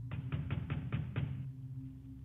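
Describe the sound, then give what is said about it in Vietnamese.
Urgent pounding on a door at night: about six quick, evenly spaced thumps over a steady low hum, which continues alone after the knocking stops. “Tiếng đập cửa ầm ầm ở bên ngoài, mỗi lúc một gấp gáp.”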